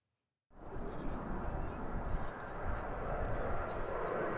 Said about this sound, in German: Da üben sie mit 6 Tornados im Grunde genommen die Basics, also starten und landen.